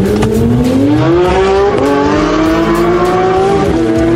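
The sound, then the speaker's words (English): An Infiniti M37S accelerates hard on a wet racing circuit, its loud, continuous engine note climbing steadily in pitch with two brief dips, as during gear changes. “you're actually going to take myself and our listeners on a lap of the Hockenheim Ring with you in this amazing Infiniti M37S. Let's go.”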